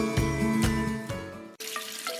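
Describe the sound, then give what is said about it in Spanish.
Water runs from a tap in a steady, dense hiss with a faint ringing, hum-like tone threaded through it. The sound stays fairly loud and unbroken apart from one abrupt, momentary drop late on. “A partir de ahora, seré más cuidadoso en el consumo del agua a la hora de lavarme los dientes o afeitarme. Si quieres ahorrar 12 litros, cierra el grifo.”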